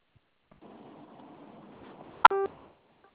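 A telephone keypad tone sounds once as zero is pressed, a single brief, clear beep that rises out of faint line hiss near the end.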